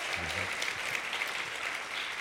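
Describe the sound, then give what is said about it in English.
A church audience applauds two pastors at the close of an evening service, dense, even clapping at moderate volume that holds steady throughout. “And yes, let's give it up. And let's extend the applause to Pastor Lance and Pastor Brian.”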